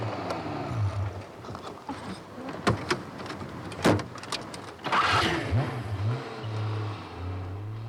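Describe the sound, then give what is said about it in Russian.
A vehicle slides backward down a slope with a landslide under its rear wheels while it brakes. A low engine drone and whine runs under sharp clanks and scraping bursts. “оползень под задними колесами. Машина скользит по уклону. Тормоз! Да они тормозят!”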